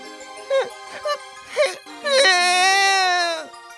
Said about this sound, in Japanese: また泣いてるの？